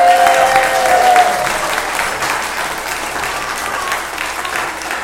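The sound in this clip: Applause for young performers at the end of a concert piece, opening with a loud burst of clapping that settles into steady, dense applause from the audience.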